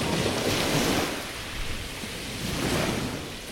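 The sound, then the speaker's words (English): Sea waves in a seascape sound effect, a steady broad wash of surf that swells slightly at the start and again near the end, fairly soft and continuous, with no voices. “I've found some nice seascape sound effects to join everything together.”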